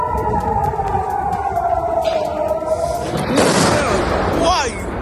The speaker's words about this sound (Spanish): Acabas de escuchar el tipo de armas que utiliza el régimen iraní. Se trata de misiles que llevan ojivas de racimo diseñadas para abrirse antes de caer y dispersar proyectiles